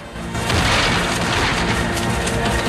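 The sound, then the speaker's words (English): Cannons and mortars on wooden platforms bombard a fort with thick timber walls. The blasts overlap into a dense, continuous booming roar with no clear gaps between shots. “Artillery crews, positioned on wooden platforms, pound away at the fort with cannons and mortars.”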